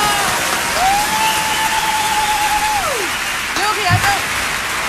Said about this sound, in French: un petit standing ovation pour vous mettre à l'aise et vous accueillir comme il se doit